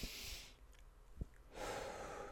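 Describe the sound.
A deep breath, soft and quiet: a long airy rush of breath, then a hushed pause broken by a brief click, then another long breathy rush.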